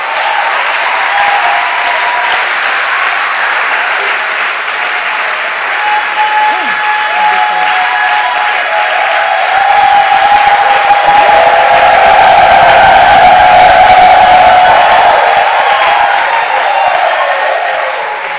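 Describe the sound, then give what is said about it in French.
An audience applauds and cheers at a church convention, with sustained dense clapping, scattered whoops and shouts, and the crowd swelling louder midway through before easing slightly toward the end. “Si tes mains t'appartiennent, acclame pour le Seigneur.”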